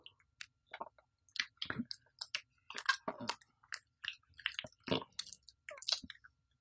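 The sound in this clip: Chewing food while eating: many wet, squishy bites and smacking clicks in an uneven, steady rhythm, fairly faint, with no talking.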